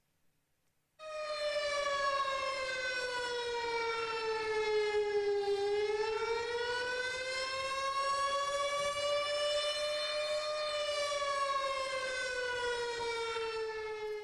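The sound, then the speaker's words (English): A storm-warning civil defense siren wails loudly alone after a moment of silence: one sustained tone that sags lower in pitch, climbs slowly back up, then eases down again. “And when that siren goes off and you hear that thing, are you going to be ready to face the storm that's coming?”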